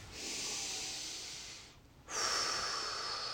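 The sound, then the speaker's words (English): A deep breath: a long, airy inhale that fades out, a brief pause, then a stronger, hissing exhale that holds steady to the end. “So if you will join me in taking a deep breath,”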